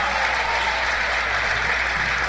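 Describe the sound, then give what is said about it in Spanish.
Audience applause at a live music show while band members are introduced, a steady, even clatter of many hands clapping, moderately loud and unbroken, with no voices over it. “Ese aplauso es para el Señor, porque nos tiene aquí.”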